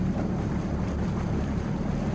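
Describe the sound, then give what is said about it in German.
Water rushes and parts along the bow of a moving boat in a steady, continuous wash with a breathy wind-like hiss, even in level and without voices. “Das Wasser teilt sich so schön am Bug.”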